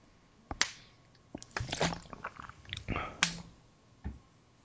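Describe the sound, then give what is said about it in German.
Drinking sounds from someone with an unmuted microphone: a faint, irregular series of wet gulps, swallowing clicks and small mouth noises, with no talking. “Hat da gerade jemand getrunken, ohne sich zu muten?”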